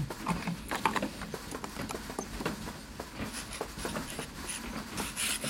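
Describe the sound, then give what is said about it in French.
Faint scratching of a quill pen signing a document: soft, irregular nib strokes with small taps and scrapes, continuing unevenly throughout. “Si vous n'y voyez rien à redire, il manque juste votre paraphe et je l'envoie à la composition typographique. Je vous emprunte votre plume.”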